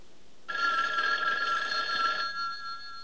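A telephone rings in a home: one steady electronic ringing burst of bright, buzzing tones lasting under two seconds, which cuts off abruptly and leaves near silence. No voices are heard.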